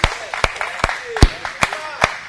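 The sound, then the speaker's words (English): Audience clapping hands for first responders: steady, evenly spaced sharp claps with a voice talking between them. “Can we clap our hands for first responders?”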